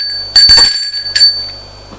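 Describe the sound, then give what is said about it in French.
A doorbell rings at an apartment door, two bright metallic chimes with a sustained high ringing tone carrying between them, loud and heard alone. “Sonne à la porte de l'appartement de sa mère.”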